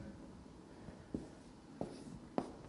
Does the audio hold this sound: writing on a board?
yes